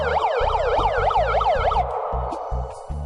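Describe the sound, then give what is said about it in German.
A megaphone's siren at a soap-bubble tennis match wails in rapid, repeated up-and-down sweeps for almost two seconds, then cuts out. A low, pulsing tone continues underneath. “Megafon.”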